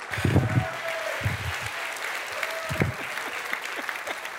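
An audience claps to welcome a guest walking up onto the stage. The applause is steady and moderately loud, with denser bursts of clapping near the start and again partway through.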